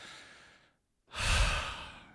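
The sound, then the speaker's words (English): One deep breath, heard alone: a soft airy breath fades into a brief silence, then a louder, fuller rush of air swells and slowly trails off. “Take a deep breath.”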